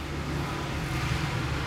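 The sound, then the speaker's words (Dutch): A small tractor drives past a campsite with a low, even engine rumble that stays steady through the short stretch, and no voices are heard. “dat kan betekenen dat er zo nu, dat er zo nu en dan een trekkertje langs rijdt.”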